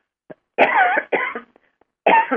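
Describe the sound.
Three harsh, throaty coughs clearing a tickle in the throat, the first two close together and the third after a short pause, led by a faint catch of breath.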